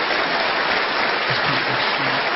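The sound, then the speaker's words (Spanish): Sustained applause from a church audience during a Father's Day service, a dense, even wash of many hands clapping at steady volume throughout, with no voices standing out. “démosle un aplauso”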